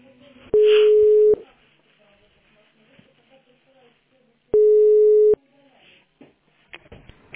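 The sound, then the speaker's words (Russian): A telephone busy signal on a call to a tax inspection office: two long, steady mid-pitched tones separated by a pause of a few seconds, over faint background noise. “Я вам звонила, что-то вот мне занято все время”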